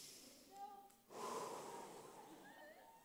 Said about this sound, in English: How about we all take a deep breath on the count of three? One, two, three.